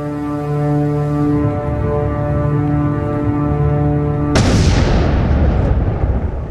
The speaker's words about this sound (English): I added the explosion at the end because cinematic effect. Yeah, it needed an explosion.